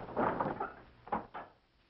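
The great door of Noah's ark, opened by an angel, gives out low rumbling, scraping bursts: a long first heave, then a few shorter surges, moderately quiet and fading at the end.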